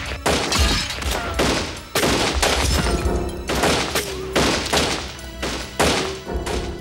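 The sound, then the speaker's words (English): Gunfire ricochets through a small auto license tag agency store during a 1978 robbery in Catoosa, Oklahoma: many loud, heavy shots in quick succession, each a sharp blast with a booming tail, and no voices. “Twenty rounds ricocheted through the small store in a matter of seconds.”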